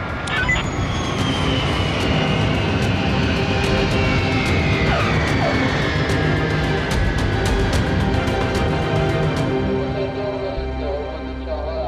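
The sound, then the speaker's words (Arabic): A landing airplane gives off a loud, sustained engine roar, with a high whine sliding slowly downward in pitch, until the noise thins near the end. “الطيارة عم تهبط.”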